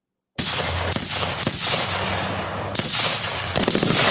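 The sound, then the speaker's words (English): Gunfire sound effect: a few sharp, loud cracking shots at irregular intervals over a continuous rough, noisy roar. “Look at you shooting.”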